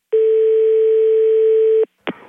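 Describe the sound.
A telephone dial tone follows the other caller hanging up: one steady, loud, constant-pitched hum lasting under two seconds, then it cuts off and a brief click and noise follow.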